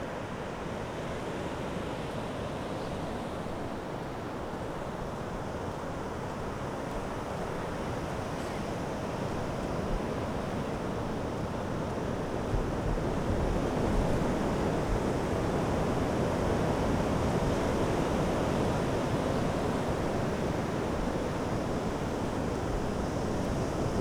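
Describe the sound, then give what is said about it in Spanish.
Sea waves roll and wash in a continuous broad roar mixed with wind, steady throughout and growing slightly louder in the second half. “Se escucha todo. Vale, ¿eh? Se escucha mucho más ahora. El mar, ahora sí.”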